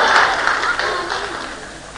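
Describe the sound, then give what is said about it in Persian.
An audience claps during a success seminar session, a dense, steady wash of many hands that stays loud and then slowly fades toward the end. “من اولیه رو گفتم ببینم کیا دست میزنن لو برن”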